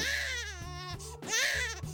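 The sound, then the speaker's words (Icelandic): An infant with colic crying in two long, loud wails, each high, strained and wavering in pitch, with a brief catch of breath between them. “Ef þið hafið einhver tíman upplifað að vera í návi við barn með ungbarnakveisu, þá vitið þið líklega að henni fylgir alveg sérstakur grátur.”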